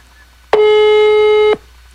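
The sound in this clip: A single ringback tone on an outgoing phone call: one steady, even electronic tone lasting about a second, starting and stopping abruptly, with nothing else heard around it.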